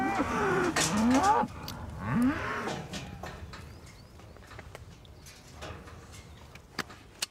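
Cows and calves mooing in a barn, the calves freshly ear-tagged and separated from their mothers; two long, loud moos come first, followed by quieter rustling and a few faint knocks.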